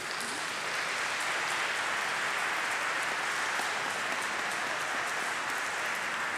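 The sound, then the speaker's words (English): Applause from a church audience at Mass, clapping to honour the parish's grandparents. The dense, steady clapping holds at an even level throughout, with no talk over it. “Let's give them all a big hand, please.”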